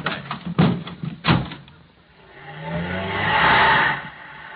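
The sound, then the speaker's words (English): A car door thuds shut with a couple of sharp knocks, then the car engine swells steadily louder as the car drives off, the rumble easing at the end. “Well, hop in. I'll drive you home.”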